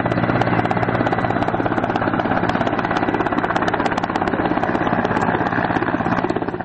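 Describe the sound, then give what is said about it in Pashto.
Helicopters of foreign forces circle over central Lashkar Gah near Bost airfield: a loud, continuous rotor-and-engine roar with rapid, regular pulsing throughout, easing slightly at the very end. “د بوست هوایي ډګر په څنډو کې د میشتو بهرنیو ځواکونو او پاچې هلیکوپټر ساتونه کیږي چې د ښار پر مرکزي سیمو باندې ګرځي.”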